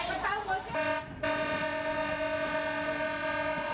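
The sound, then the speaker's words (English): Diesel locomotive horn on a newly opened Cambodian rail service: a short blast, a brief break, then a long steady blast that holds to the end. “At 6:30, a horn sounds from the diesel locomotive.”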